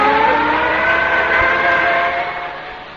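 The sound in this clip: A police van drives away in London: a steady, loud engine rumble with a broad, droning hum that fades away toward the end.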